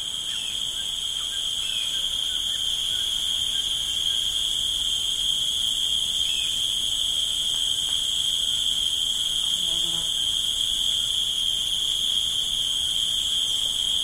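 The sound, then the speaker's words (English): Cicadas drone in a forest at midday, a loud, continuous, high-pitched buzz with several layered bands that holds unbroken from start to finish. “One of the things that I was struck with so quickly was how loud the forest was. During midday, the cicadas were just deafening.”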